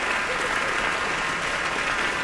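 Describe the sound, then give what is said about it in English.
Enthusiastic audience applause for a young pianist at Kulas Hall during the Cleveland International Piano Competition for Young Artists: a thick, continuous roar of clapping at steady, full loudness. “Pianist Wilson Liu on stage now, accepting very enthusiastic applause from the audience here at Kulas Hall.”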